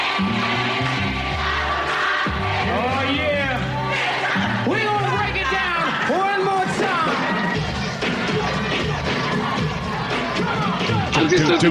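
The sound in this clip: A boisterous Apollo crowd going wild during a live performance: loud shouting, cheering and screaming voices blend into a dense, sustained roar that stays intense throughout.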